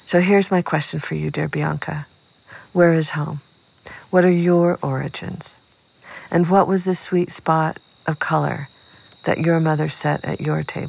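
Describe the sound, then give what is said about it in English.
August crickets from a childhood in Seattle chirp in a continuous high, thin trill that runs steadily beneath a person talking. “And this is the sound of my childhood, August crickets.”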